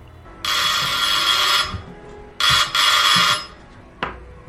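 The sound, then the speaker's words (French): A doorbell rings with a bright, loud electronic tone. One long ring is followed by two shorter rings in quick succession, then silence. “Et ce n'est pas fini, car voici qu'on sonne.”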